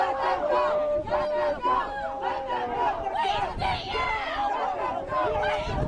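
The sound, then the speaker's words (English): Protesting students chant a short slogan in unison as police arrest them, the shouted phrase repeating in a steady rhythm. The loud, overlapping voices carry energetic cries throughout. “They're chanting, "Let them go there." That's the sound of students in one of these protests.”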